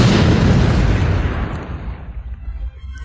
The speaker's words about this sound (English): as the Death Star arms to strike the base, the chain reaction sets the orb aflame. The Death Star has exploded into space.